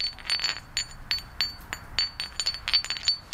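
Flint pieces knocked against each other, giving a silvery ring: a long run of quick, light, glassy clinks in an uneven rhythm, some louder, most soft and delicate.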